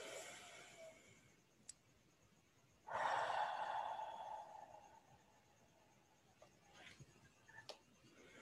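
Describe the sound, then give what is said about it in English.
Breathing in and out during a guided breathing exercise: one long, loud, airy breath stands out, followed by a few much fainter breaths and small clicks, with no speech. “Inhale, exhale, and one more.”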